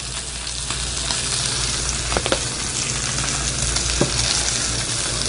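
A heavily seasoned steak sears in a hot pan with a loud, steady sizzle and crackle that runs without a break. A few brief sharper pops sound through it.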